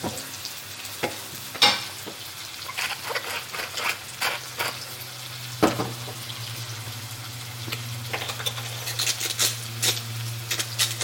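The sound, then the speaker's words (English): Aubergines frying in a pan give off a steady, loud sizzle, broken by many sharp crackles and pops throughout. Nobody speaks. “So give these a fry.”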